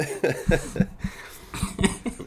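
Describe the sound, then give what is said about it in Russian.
A feverish person coughs close to a microphone, giving a rapid series of harsh, throaty coughs in two clusters with a brief pause between them. “Я постараюсь кашлять мимо микрофона, но я ничего не гарантирую.”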